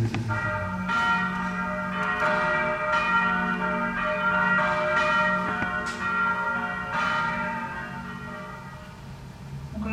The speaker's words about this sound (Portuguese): que o sino se incorpora a ela, mas não é, ele não vira a música, ele não faz parte do arranjo. Não é uma peça para vozes e sino.